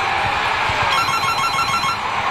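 A telephone rings with a repeating, pulsing tone, partly buried under dense, loud, continuous background noise throughout.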